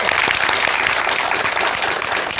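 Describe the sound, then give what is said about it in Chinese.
Warm, dense applause from an audience welcoming a professor at a classical Chinese poetry recitation event, a loud continuous patter of many hands clapping steadily throughout. “我们用热烈的掌声欢迎我们的活字典姚教授。”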